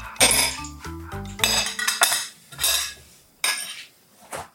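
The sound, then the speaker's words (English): A metal spoon clinks and taps against bowls as two tablespoons of cooked white rice are added to each. Many sharp, bright clinks and soft scrapes come in quick, uneven bursts, with no talk. “spoon to add two tablespoons of cooked white rice to each of your bowls”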